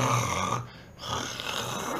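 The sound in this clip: A voice imitates a person snoring with two long, rough snores separated by a short quiet pause.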